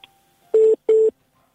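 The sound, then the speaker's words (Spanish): Telephone line tones on an incoming call: two short, steady mid-pitched beeps of equal length with a brief gap between them. No voices are heard. “Es que parece que nos están llamando por teléfono”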